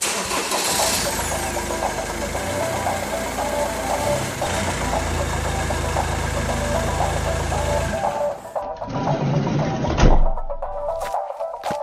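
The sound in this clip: A car engine starting and then idling, a loud, steady rumble that fills the whole clip, with a brief shift in tone toward the end.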